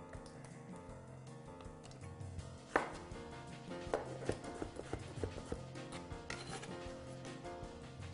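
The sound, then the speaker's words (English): A knife slices strawberries very thin on a cutting board, giving many faint, irregular taps and knocks over a quiet background, with a few sharper cuts standing out. “I'm slicing these very thin. I'm going to put them inside of a bowl.”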